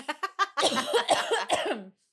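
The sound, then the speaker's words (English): Harsh coughing from someone who has just eaten crackers: a few short, sharp coughs in quick succession, then a longer, rougher burst of coughing that fades out. “I'm going to cough because I had crackers before this.”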